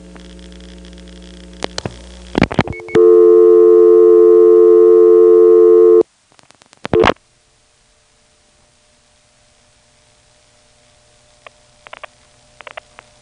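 A step-by-step telephone exchange switches on a trunk line with dialing crosstalk. Bursts of mechanical clicks lead into a loud, steady tone lasting about three seconds, then another cluster of clicks, and finally faint, scattered clicks near the end.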